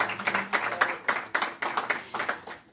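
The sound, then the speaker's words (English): Audience applause for a speaker at a member-led environment and natural resources forum: dense, steady clapping from many hands, rising and falling in quick bursts across a few seconds, with no voices over it. “So a big hand for Carrie for carrying our questions.”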